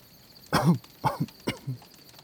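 A few rough, hoarse coughs from a person outdoors at night after smoke from a burning tent, coming in short uneven bursts with brief pauses between them.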